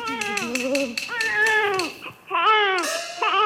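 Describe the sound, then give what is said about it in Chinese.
An infant wails in a few long, strained cries with strong harmonic overtones. The cries are loud and sometimes tail downward in pitch, with a brief break before the last outbursts. “哎呀，哪里是鬼呀？分明是婴儿啼哭， 婴儿啼哭 啊！”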